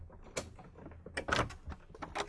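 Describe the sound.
A key opens the door to the street. Faint metallic clicks and a rattle of the lock come in a few short bursts, the louder ones near the middle and the end.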